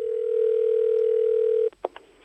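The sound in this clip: A telephone dial tone sounds before a call, a steady, loud, low-pitched hum lasting under two seconds that cuts off abruptly, followed by a few short, fainter tones.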